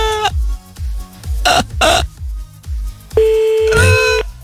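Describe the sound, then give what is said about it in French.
Telephone keypad tones as a number is dialed to call someone back: a few short electronic bursts, then a longer steady tone, over a steady thumping low beat. “Allez, attends, on va le rappeler.”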